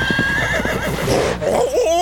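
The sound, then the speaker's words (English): Horse neighing loudly, a wavering, shrill whinny that rises and falls across the stretch, with no talk. “Hey, who's that hot guy galloping toward us on that hot horse?”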